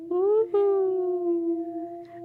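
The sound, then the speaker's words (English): A wolf howl: one long, sustained, tonal cry that rises slightly at first, briefly breaks, then holds a steady pitch and fades, alone and fairly loud. “It is, of course, the wolf howl. It sounds like this.”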